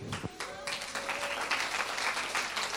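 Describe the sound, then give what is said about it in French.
An audience applauding at a worship service as three speakers are welcomed, a steady, moderately loud stretch of clapping that fills the whole span. “Donc on peut déjà les applaudir d'entrée parce que ça va être magnifique.”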